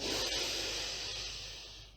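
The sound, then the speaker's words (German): A long, deep breath in during a guided breathing exercise, heard as a soft, airy hiss that holds steady for about two seconds and slowly fades. “Ein letztes Mal volle Power die Luft einatmen.”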